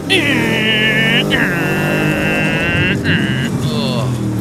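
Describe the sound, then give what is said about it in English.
Electronic engine whine from arcade driving game machines, a loud, steady buzzing drone with high tones that hold and shift in pitch a few times over a continuous low rumble. “I'm at an arcade. They have lots of driving games.”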